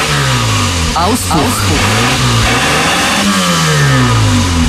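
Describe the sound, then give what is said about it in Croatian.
A car engine revving through its exhaust, a loud continuous growl whose pitch climbs and falls back in repeated surges, with no break in the sound. “Auspuh.”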